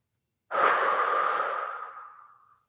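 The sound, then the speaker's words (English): A single deep breath blown out slowly as a relaxation and voice warm-up exercise, one long, breathy airy exhale that starts suddenly, holds steady and gradually fades away over about two seconds, alone without talk. “Even just taking some really, really deep breaths and blowing out that breath for as long as you can”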